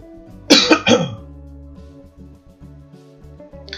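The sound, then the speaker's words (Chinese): A person with a dry throat coughs three times in quick succession, a short harsh burst, over soft, steady background music that continues afterward. “讲到我喉喉咙干啊，啊，这个咳嗽呢”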